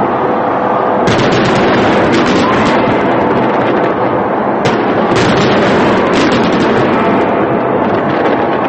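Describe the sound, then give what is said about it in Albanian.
A massive fireworks display over the River Thames in London at midnight: a loud, dense, unbroken barrage of booming bursts and crackle, with no pauses between the explosions. “Zyrtarët të qytetit organizuan një shfaqje masive të fishekzjarëve.”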